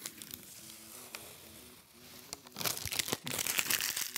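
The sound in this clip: Protective paper is peeled off a sheet of diffusing acrylic, a crackling, tearing rasp that starts quiet and patchy, then grows louder and more continuous in the second half, with a brief break before the end.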